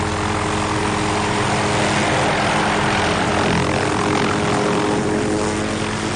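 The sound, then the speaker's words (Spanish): A blue and silver helicopter lands on a hospital helipad, producing a loud, unbroken roar of rotor and engine noise that stays steady and dense throughout. “Otro helicóptero, de color azul y plata, aterriza en la pista de un hospital.”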